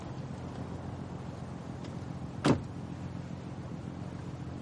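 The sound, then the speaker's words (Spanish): A car door shuts with a single short thud as a woman gets into the passenger seat in a 2015 thriller film. A faint, steady low hum sits underneath. “Luke se dirige al coche. Chris mira a Ludivine. Ella sube al asiento del copiloto.”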